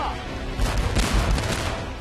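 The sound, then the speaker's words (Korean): A volley of gunfire follows an order to fire in a dramatized battle of the American war for independence: many overlapping shots form a loud, rough burst that peaks in the middle and then thins out. “전원 발사! 공격하라! 발사!”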